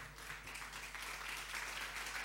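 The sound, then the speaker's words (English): Faint applause from an audience welcoming debaters at a debate event, with soft, steady clapping over a low hum. “Thank you for putting your hands together.”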